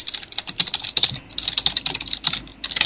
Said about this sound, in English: I'm going to type something in IRC again.